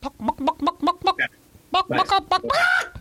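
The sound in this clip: A human voice imitates a clucking chicken to tease a dog: a quick run of short, rhythmic clucks, a brief pause, then more clucking that ends in a longer drawn-out squawk.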